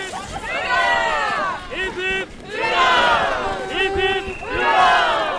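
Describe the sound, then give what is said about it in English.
A crowd of a couple thousand people cheers on Norwegian National Day in Longyearbyen, Svalbard, in the Arctic North Atlantic. Loud massed shouts rise in about three surging waves, each a dense roar of many voices that falls away before the next swell. “This is the sound of a couple thousand extremely happy Norwegians.”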